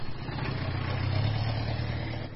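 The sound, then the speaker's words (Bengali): Car engine running with a steady low rumble and a faint hiss on top, even and unbroken throughout with no voices. “পারিজাত বক্সী গাড়ি চালু করলেন, থামলেন এসে লালবাজারে।”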